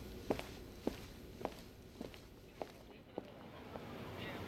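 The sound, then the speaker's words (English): Footsteps of someone walking away: about seven soft, evenly spaced steps at a steady pace over a faint, low hiss. “I walk away.”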